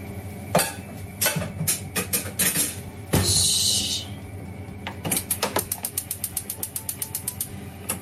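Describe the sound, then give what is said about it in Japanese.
Clattering and rustling as an Evercook frying pan and foil are handled: scattered sharp knocks and clicks, a brief burst of crinkly hiss midway, then a rapid, even series of light ticks to the end. “エバークックフライパン、よし、ホイルと、”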